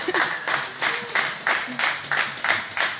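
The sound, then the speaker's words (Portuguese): An audience claps in unison at a live music concert, steady rhythmic beats about twice per second. The claps are crisp and even, held at a moderate, constant level. “Palmas e tudo!”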